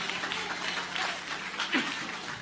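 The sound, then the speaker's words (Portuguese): A church audience claps hands for Jesus during a worship service, giving a dense, steady patter of applause that stays even throughout. “Bate palma para Jesus.”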